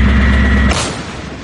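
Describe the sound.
A 155 mm artillery gun fires once: a heavy, booming blast with a sharp, broad crack, then a rumble that fades over the following second.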